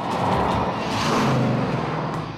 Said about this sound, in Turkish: Bu araba sadece gidiyor, gidiyor ve gidiyor.